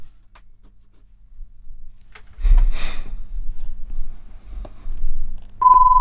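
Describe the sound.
A ticket-checking device gives a single steady electronic beep near the end, over low hum and some rustling handling noise.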